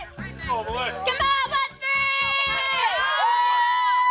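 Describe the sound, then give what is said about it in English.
Girls playing a sport run fast and hit hard, with many quick low thuds in an uneven rhythm under high-pitched girls' shouts and calls that run throughout. “That's the sound of girls playing sports, running fast and hitting hard.”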